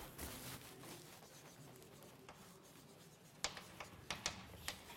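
Handwriting with a pen during a probability explanation, faint scratchy strokes rubbing along steadily, then several sharper, distinct strokes toward the end.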